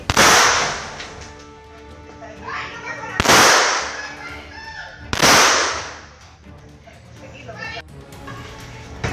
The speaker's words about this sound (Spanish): Y sin pensarlo, disparó varias veces contra los García.